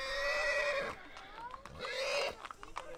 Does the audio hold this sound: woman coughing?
no